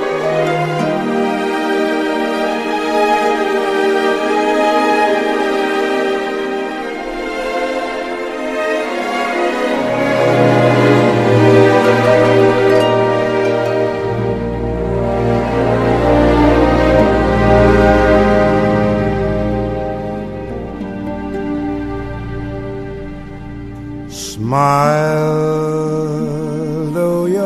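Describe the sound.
A soulful male jazz singer performs with his band, holding long sung lines over full, steady accompaniment at a strong level, with the texture shifting near the end.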